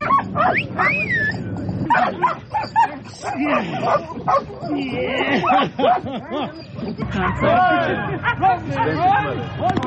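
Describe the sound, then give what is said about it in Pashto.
Several dogs bark at a mine-detection dog training centre, with loud irregular barks, yips and whimpers mixed with people talking. “راپور د سپیو د روزنې د مرکز په ژغونو شروع کیږي.”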